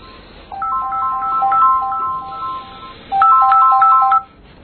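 A phone ringtone plays alone: a bright electronic melody of quick, high beeping notes in two loud phrases separated by a short pause.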